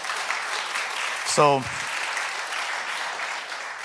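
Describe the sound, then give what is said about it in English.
Congregation applauding during a church service after a call to give a hand to the Lord: a steady wash of clapping fills the whole clip, with a brief vocal shout rising above it near the middle. “Can we give a hand to the Lord?”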